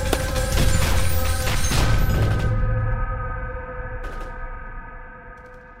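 Gunfire aimed at attackers: a dense, loud barrage of rapid shots that cuts off after a couple of seconds, then a lingering ring dying away, broken by one more sharp crack.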